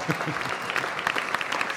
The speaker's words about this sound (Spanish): aplaudan si han aplaudido